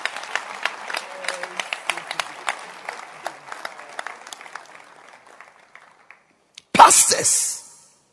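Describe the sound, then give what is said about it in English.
Audience clapping hands together in a steady, rhythmic beat that gradually thins out and fades, followed by a brief loud burst of noise at the very end. “Let's clap our hands for brothers.”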